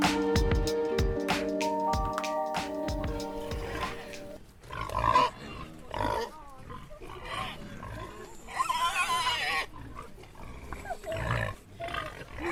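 Wild boar grunting and snorting in a forest, a series of rough, irregular bursts that follow an opening stretch of tonal music.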